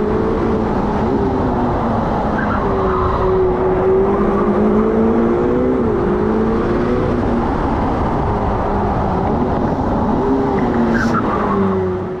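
A Formula 1 race car accelerates out of the Rascasse corner at Monaco onto the main straight. Its engine gives a loud, continuous whine whose pitch wavers and climbs in short steps, with no voices.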